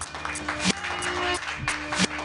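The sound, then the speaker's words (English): Audience applause and cheering welcoming the next comedian at a happy-hour open mic, a short burst of clapping with a few louder swells. “Put your hands together for your next comedian, everybody.”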